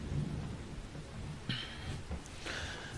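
Rain and thunder: a faint, steady hiss of rainfall over low rolling rumbles, with a few brief sharper sounds and no voices.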